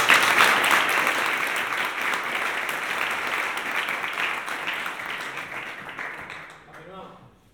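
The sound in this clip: Audience applause at a game jam event: dense, steady clapping from a crowd that keeps a fairly even level for about seven seconds before tapering off at the end.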